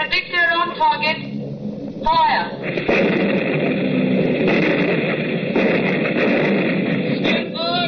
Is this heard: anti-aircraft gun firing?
yes